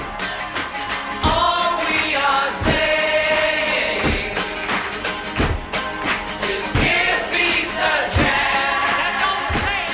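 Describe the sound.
A song recorded by a couple in a Montreal hotel room plays loudly throughout, with sung voices over strong, evenly spaced percussive beats and a crowd-like chorus texture.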